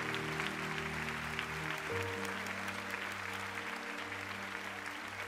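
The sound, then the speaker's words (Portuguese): Congregation applause during a bilingual church service after a prayer: faint, continuous clapping under sustained low keyboard chords that change partway through, staying quiet and even throughout. “Thank the Lord. Let's praise Louvado the Lord. Louvado seja o Senhor. Vamos aplaudir.”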